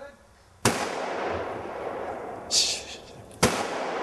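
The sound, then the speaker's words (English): Two sharp, loud gunshots from a gun fired by a first-time shooter, about three seconds apart, each a sudden crack that fades into steady background noise, with a softer burst of noise between them. “Never shot a gun before. I'm going to do it today, see how that goes.”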